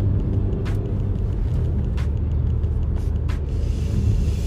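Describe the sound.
A car drives along the road with a steady, loud low rumble of road and engine noise throughout, broken only by a few faint, brief hissy clicks.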